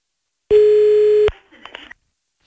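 An outgoing phone call gives a single steady ringback tone lasting under a second, followed by faint clicks and line noise.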